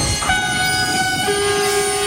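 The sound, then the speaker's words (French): A train sounds its horn as it arrives along the railway track. Sustained horn tones sit over a steady rolling rumble, and a second, lower tone joins partway through while the noise stays loud and continuous. “Je vous laisse, j'ai mon train qui arrive. Ah, monsieur, faut pas rester sur la voie là, c'est dangereux.”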